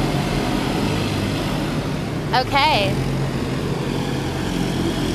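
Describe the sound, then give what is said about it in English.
Steady engine drone from eight or nine military four-wheelers and a couple of police cars going up a street, holding level throughout, with a brief spoken word midway. “Oh, there's 8 or 9 four-wheelers from some type of military brigade and a couple cop cars just going up the street here.”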